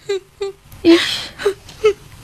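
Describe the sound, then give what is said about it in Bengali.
A mother cries during a domestic quarrel with five short, wavering whimpering sobs in an uneven rhythm. The middle sob is a longer, breathier wail. “মা কাঁদছে”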